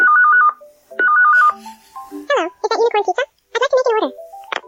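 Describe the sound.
A phone rings in a pizza-making video game: two short, warbling electronic ring bursts, loud and clear. A high-pitched voice then talks in quick bursts.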